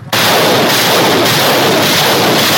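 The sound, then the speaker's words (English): Rocket fire by Ukrainian forces near Kharkiv, aimed at Russian positions: a sudden loud onset becomes a continuous, dense roar that holds without a break. “Meanwhile, in the northeastern city of Kharkiv, Ukrainian servicemen fired rockets at multiple Russian positions.”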